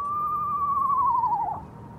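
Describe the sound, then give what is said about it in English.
An eastern screech owl perched on a tent by water gives a single long, quavering whinny. It holds a steady pitch, then slides downward and breaks off near the end, over faint background hiss. “It was an eastern screech owl, and David could feel it vibrating each time it called out.”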